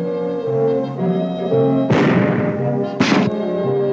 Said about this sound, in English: The stage is now set for a rather surprising demonstration. First, the 45 caliber automatic.